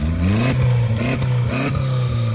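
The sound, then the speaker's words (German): An Audi A3 stubble-field race car engine revs hard in several quick, rising bursts, loud and rough with a buzzy growl that barely drops between pulls. “dieses Geräusch, das gehört zu dem Audi A3”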